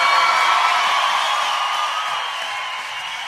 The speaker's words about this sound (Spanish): Si ese aplauso para él, tiene que dárselo mucho más fuerte.